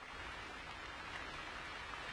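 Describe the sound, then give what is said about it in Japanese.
Rain falls steadily in a faint, even hiss that holds at a constant level throughout, with no other sounds. “雨止まないね。”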